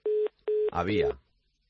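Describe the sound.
A telephone tone follows a dropped phone call. Two short, steady, low beeps come out evenly spaced, and then a voice speaks.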